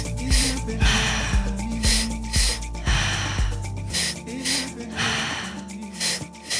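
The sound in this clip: Many quick, rhythmic breaths in and out in a guided breathwork session, each forceful and airy in a steady pulse over music with a deep bass layer.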